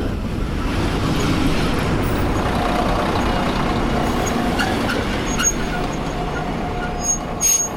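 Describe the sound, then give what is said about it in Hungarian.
A Nohab diesel locomotive hauling three coaches on a shuttle service rumbles steadily at Badacsony station, with a broad, even mechanical roar throughout and a few faint high squeals toward the end. “közben éppen azt nézzük itt Badacsonyban, hogy ez a nohabos Füred Tapolca inga három kocsival”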